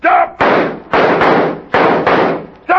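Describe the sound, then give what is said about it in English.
Loud gunshots in a western shootout, a rapid series of heavy bangs, each followed by a short ringing decay, coming in uneven pairs and singles. “You missed him. This is poor light for shooting, mister.”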